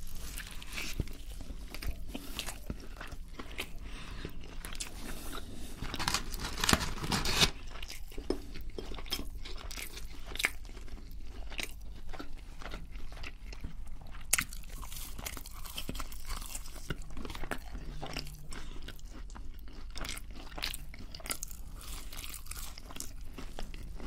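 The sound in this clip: Crunchy bites and steady chewing of a Burger King meal, with many soft crunches and occasional crinkles, quiet and close, with no talking.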